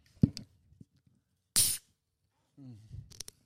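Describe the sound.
A beer can cracked open gives one short, sharp hissing burst. Faint clinks and soft sounds come before it, and people talk just after.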